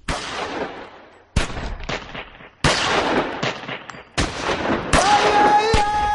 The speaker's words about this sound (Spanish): Sí, sí, sí, aunque no lo parezca, esto es ópera.